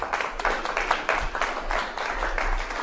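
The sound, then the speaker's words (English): An audience at a poetry reading claps for a reader: steady, moderately loud applause with no break, and no voices over it. “That is Ryan. Give him a hand.”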